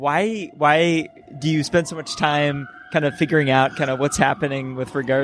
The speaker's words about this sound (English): There's a dignitary going along here. They decided to go out to McDonald's for lunch, so I'm sorry for the motorcade noise.